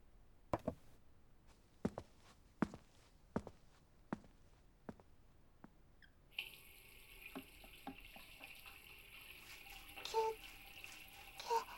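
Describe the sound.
A mug is washed under running water: a string of sharp, faint taps and clicks gives way to the steady hiss of a tap, with a few small clinks in the stream.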